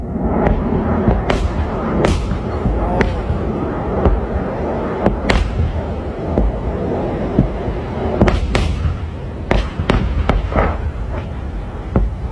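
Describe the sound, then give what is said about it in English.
PAC-3 Patriot missile interceptors launch in Bahrain against incoming drones and missiles, giving many sharp, booming pops at irregular intervals over a constant low rumble. “And so each of those pops, those are PAC-3 Patriot missile interceptors, $4 million a hit.”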